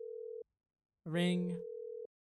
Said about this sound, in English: Clicks on it. That sounds about right. It's on a speaker. There's a ring.